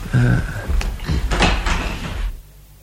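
A door being opened to let in evening visitors: a cluster of latch clicks and rattling knocks over about two seconds, ending abruptly in near silence.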